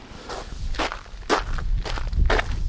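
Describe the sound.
Footsteps walk through a garden toward pampas grass. Several crunchy steps fall at a steady, unhurried pace, each a short, fairly loud scuff.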